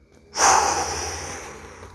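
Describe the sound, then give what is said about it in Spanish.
One breathy exhale after breathing in through the nose, a soft rushing whoosh that starts abruptly, then fades slowly over more than a second. “Respiro por la nariz. Aguanta. Expulsa.”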